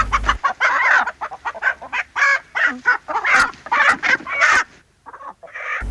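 A rooster and a hen cluck as they scratch up dust. There are many loud, short, raspy clucks in quick, irregular bursts separated by brief pauses, and no voices are heard.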